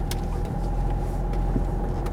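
Inside a car as it starts to drive off, a steady low rumble of engine and road noise holds at an even level throughout, with no talk.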